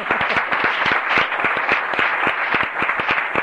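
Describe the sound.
Legislators in a state senate chamber applaud a visitor in the gallery, a run of many crisp, distinct claps at a quick, fairly regular pace, moderately loud and without talk.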